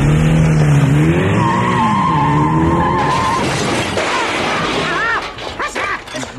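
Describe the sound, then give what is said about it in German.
A car speeds off hard with its tires skidding and squealing. A loud engine roar carries wavering squeals that bend up and down in pitch, then the sound turns choppy and uneven in the last second. “Warum düst denn dieser idiotische Schlitten auch gleich ab wie eine Rakete?”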